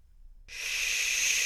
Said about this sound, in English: release the air on shh with a little regulated power. It'll sound something like this.